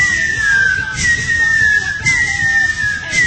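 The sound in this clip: A voice imitating a toy whistle: a bright, steady high-pitched tone that dips slightly and repeats in a few sustained phrases over low background noise.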